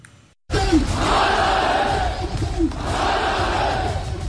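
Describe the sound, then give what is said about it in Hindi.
A large protest crowd in the streets of Rawalakot chants slogans against Pakistan, a loud, dense mass of shouting voices that rises in rhythmic surges and holds steady after a brief silent start. “सुनिए इन नारों को, ये नारे किसी आम प्रदर्शन के नहीं हैं”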